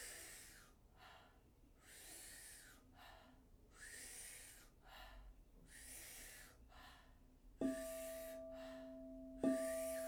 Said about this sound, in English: So powerful inhale, as big as you can take it. Soft exhale. It sounds like this.